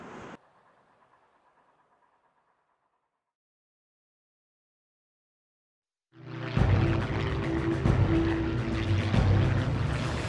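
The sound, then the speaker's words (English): Aircraft engines in the 1940 Battle of Britain over southern England: after several seconds of near silence, a loud, steady droning roar cuts in abruptly and continues at full strength. “August 1940. The skies above southern England are filled with aircraft and the sounds of battle.”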